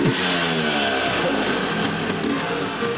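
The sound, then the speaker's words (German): Old two-stroke Vespa scooter engines rattle and rev, giving a continuous buzzing drone with slight swells in pitch and loudness and no voices. “So wie das Knattern der alten Zweitaktmotoren.”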